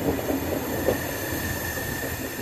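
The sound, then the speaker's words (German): A night sleeper train rolls through the suburbs of Ankara with squealing brakes. A thin, high, steady squeal sits over continuous rumbling wheel and rail noise, heard alone. “Fast eine Stunde lang rollt der Zug mit quietschenden Bremsen durch die Vororte Ankaras”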